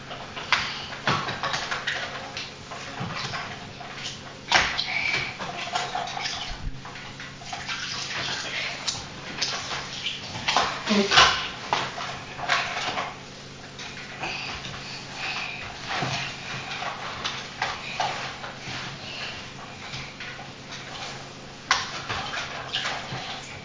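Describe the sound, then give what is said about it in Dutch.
Bathtub water sloshing and splashing as a doll is bathed, with intermittent pouring and dribbling throughout and faint voices at times. “Oh, je bent een pop in het bad aan het doen?”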